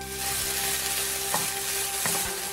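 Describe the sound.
Fish sizzles on a grill with a continuous, bright crackling hiss, steady and fairly loud, broken only by a couple of brief scraping touches.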